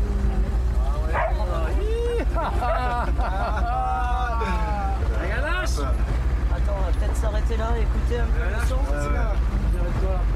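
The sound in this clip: Dog barks and yips from a video game, scattered among near-constant talking over a steady low background rumble.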